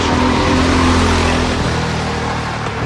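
Go-karts driving on a karting track, their power matched to the drivers' age, give off a steady, loud engine drone with a buzzing harmonic tone. The engine note drops a step partway through and no voices are heard.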